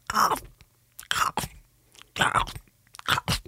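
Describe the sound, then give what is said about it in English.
A voice imitates someone crunching popcorn with four rhythmic, crackly mouth bursts separated by short pauses. “of her crunching popcorn”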